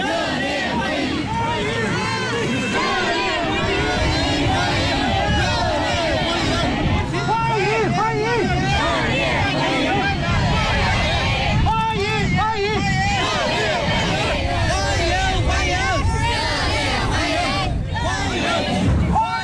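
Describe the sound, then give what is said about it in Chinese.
A crowd of overseas Chinese and students lines a road, cheering Xi Jinping's motorcade on its way from the airport to his hotel. Massed voices chant and shout in a loud, continuous roar for about twenty seconds. “习近平乘车从机场赴下榻饭店途中，华侨华人和留学生代表聚集在道路两旁，挥舞中美两国国旗，热烈欢迎习近平主席到访。”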